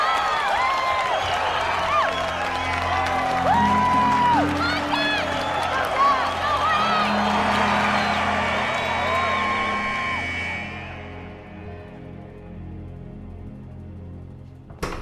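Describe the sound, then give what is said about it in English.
A crowd standing to cheer and applaud during starting-lineup introductions at a high school basketball game, a dense wash of clapping, shouts and whoops that stays loud for about ten seconds, then fades away. “The crowd stands up and applauds.”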